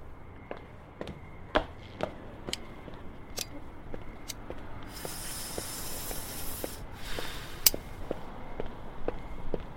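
Footsteps of someone walking away: many crisp, regular steps at an even pace, with a burst of hissing noise partway through.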